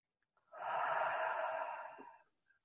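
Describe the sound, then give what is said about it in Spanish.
A slow, deep inhaling breath during a guided breathing session: one steady, airy hiss lasting well over a second, rising softly and fading at the end, alone and fairly quiet. “Inhalando.”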